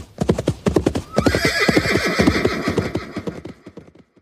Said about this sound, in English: The horse stopped and looked at the girl. Then her loud whinny echoed through the fields as she faded away